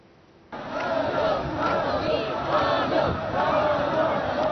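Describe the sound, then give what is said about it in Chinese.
Crowds in national costume lining the road in Pyongyang cheer loudly to welcome a passing motorcade; after a brief quiet stretch the roar of many voices cuts in abruptly and holds as a sustained, dense wall of shouting. “在前往木兰馆的路上，沿途站满身着民族盛装的热情民众，热烈欢迎习近平的车队经过。”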